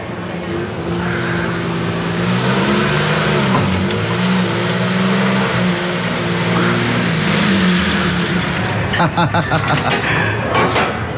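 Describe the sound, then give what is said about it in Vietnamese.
A car engine revs loudly as the vehicle arrives, a continuous heavy rumble throughout that breaks into a quick series of rapid pulses near the end. “Anh, xe đâu ra? Sao anh lại lái về đây vậy?”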